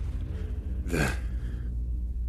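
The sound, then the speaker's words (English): A single quick indrawn gasp, short and breathy, rises out of a low steady background hum and fades after about a second. “what you hear is an indrawn breath from Ekphelia”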